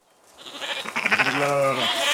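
A single drawn-out, nasal sheep bleat rings out at a summer sheep camp up a mountain, rising out of a soft rustling background that swells in from near silence.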